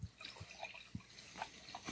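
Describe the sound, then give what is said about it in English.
Weldwerks Brewing Shadow Blaster beer is poured from a 16-ounce can into a big glass, giving a faint gurgling trickle with soft splashes and drips, and no voices. “Pouring in my big glass. This is from our Colorado reps, Colin and Janine Weldwerks Brewing Company, Shadow Blaster.”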